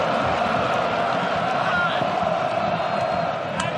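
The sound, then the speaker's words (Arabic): Norwegian football fans celebrate a goal at a World Cup match: a continuous crowd roar with cheering and whoops, holding steady with little rise or fall. “فرحة كبيرة لدى الجماهير النرويجية اللي شفت عددها نسبيا برشا”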